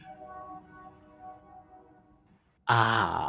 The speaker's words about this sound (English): I love that when you took that breath in, the train was like, hello.